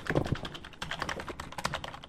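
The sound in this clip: Rapid keystrokes clatter on a computer keyboard while someone plays an email simulator video game: steady, irregular tapping with no pauses and no voices.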